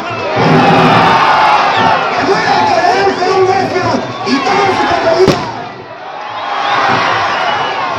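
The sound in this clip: A large crowd shouts with enthusiasm at a Morisma mock-battle festival of Moors and Christians in Vetagrande. Loud massed voices roar continuously, and one sharp crack cuts through near the end.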